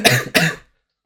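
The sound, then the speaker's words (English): Two quick, harsh coughs with throat clearing from a man with a lingering lung ailment, loud and close together, then the sound cuts to silence. “when I talk too much, I start to cough”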